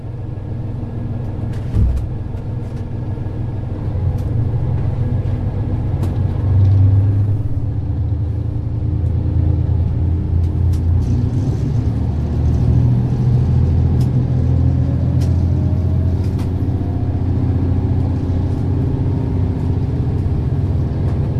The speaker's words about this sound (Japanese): この法規大仙駅っていう途中の駅なんですけど、はい、ここを出発する時のちょっとあの車内で、録音してきましたので